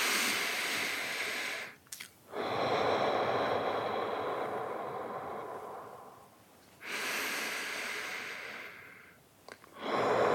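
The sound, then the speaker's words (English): Slow, deep breathing from a person lying in bed, several long airy inhales and exhales of a few seconds each, soft and steady with short pauses between them. “Nothing fancy, just keep going with those deep breaths.”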